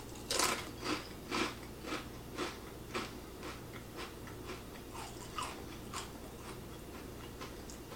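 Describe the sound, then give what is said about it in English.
Crunching on Takis Blue Heat rolled tortilla chips, a steady run of many crisp, dry bites repeating at an even pace, faint and without speech. “Takis Blue Heat. Taste test. Here we go. I'm going to get two of them. 3, 2, 1, first time trying these things.”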